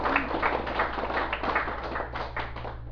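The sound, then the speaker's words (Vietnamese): Audience clapping at the start of a Buddhist dharma talk, a moderate patter of hands that swells and eases in loose bursts over a steady low hum. “Xin quý vị vỗ tay.”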